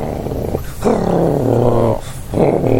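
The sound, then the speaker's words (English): A dog growling by a door: low, rough rumbling growls in a few sustained bursts with brief breaks, loud and alone with no talk. “Your dog is growling.”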